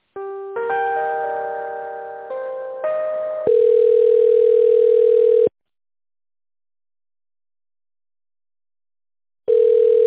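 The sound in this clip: A telephone line sounds while a call is transferred: a few stepped, chord-like electronic tones lead into a loud, steady tone that stops, leaving silence, before the same tone returns.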